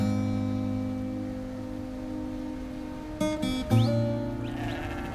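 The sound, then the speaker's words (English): Sheep bleating as two riders on horseback herd a flock across a grassy hillside by a river, with dogs running among them; a few short bleats stand out past the midpoint over a steady sustained background. “The two of them on horseback are herding sheep across a grassy hillside.”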